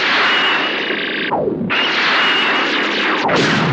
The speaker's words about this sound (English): All ready, sir. Force field on. Fire. Fire now.